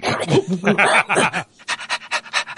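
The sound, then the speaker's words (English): A human voice imitates a dog's gross, guttural noises with a throaty, gurgling rumble, then breaks into quick rhythmic panting of many short breathy puffs. “go back to the smiling, panting thing after just making these gross, disgusting, guttural noises”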